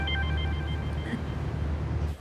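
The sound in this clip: A telephone rings, a few steady electronic tones repeating over a dense, low background rumble, then breaking off near the end.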